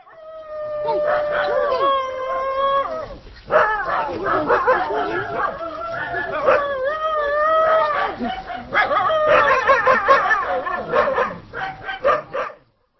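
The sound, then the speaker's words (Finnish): Dogs tied to a post in a village elder's yard at evening, howling and barking in long, wavering, harmonic cries broken by sharper yelps, loud and nearly continuous throughout. “Pihalle on tuotu kaksi koiraa, jotka on kytketty kiinni pylvääseen. Ne eivät tunnu pitävän vieraista”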